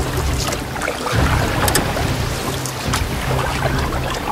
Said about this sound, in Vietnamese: Nhanh lên nào, chèo vào bờ thôi, nhanh lên.